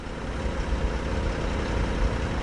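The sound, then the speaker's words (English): A large semi-truck engine idling on a farm in Greenwood, Delaware, as the truck prepares to leave: a steady, loud, low rumble with an even, unbroken texture, no voices. “At Hobo Farm in Greenwood, Delaware, two men wearing white coveralls spray disinfectant on the tires of a large semi-truck preparing to leave the farm.”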